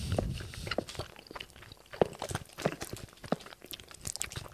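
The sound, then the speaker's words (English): Crunchy chewing as people bite into and taste a chocolate bar: a quick, irregular run of small crisp crunches and mouth clicks, fairly faint, with no talk over it. “we're just going to taste this. So for anyone who's on audio only, we are now chewing.”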